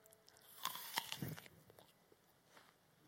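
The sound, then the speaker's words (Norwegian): Someone chewing and eating food: a few soft, crunchy bites and moist chewing noises, faint and close, with no talk. “Det var veldig godt. Jeg vet ikke om dere er misunnelige. Det ser godt ut. Det smaker godt. Eh, nå skal jeg ikke spise hele, for da tror jeg ikke jeg får gjort mer.”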